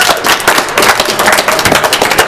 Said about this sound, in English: Another round of applause